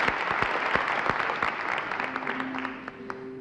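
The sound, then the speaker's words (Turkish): A concert audience applauds a Black Sea folk dance group with many sharp, overlapping hand claps that stay fairly loud and then thin out slightly toward the end. “Bir kez daha alkışlayalım mı Sürmeli ekibini?”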